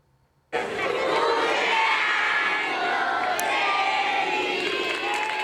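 A crowd cheers and shouts as Queen Letizia leaves her old school in Oviedo, the noise bursting in abruptly after a near-silent moment and holding at a loud, dense, continuous level throughout.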